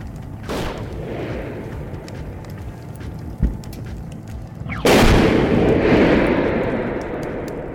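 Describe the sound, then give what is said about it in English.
Grenades are launched and explode: a sharp burst, then a short dull thud, then a loud heavy blast whose rumble slowly fades. “launch all the grenades you have left.”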